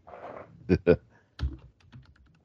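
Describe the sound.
A computer keyboard clicks as someone types, a few short bursts of keystrokes separated by brief pauses.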